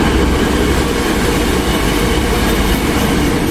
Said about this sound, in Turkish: Elektrikli altyapısıyla hizmet veren tren saatte 200 kilometre hıza ulaşabiliyor.